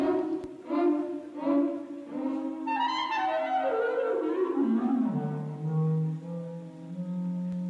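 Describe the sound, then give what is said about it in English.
A noble yet mocking wacky-horns sound-effect cue: a few brassy repeated notes, then a comic sliding phrase that droops steadily downward in pitch before settling on a low held tone. “For example, one of my favorites, the noble yet mocking Wacky Horns.”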